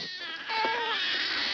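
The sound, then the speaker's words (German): Babies crying, a sustained wail of harmonic cries that swells after a short quieter start and holds steady and fairly loud over a hissy background. “Captain, die Geräusche von dem U-Boot hören sich an wie Babyschreie.”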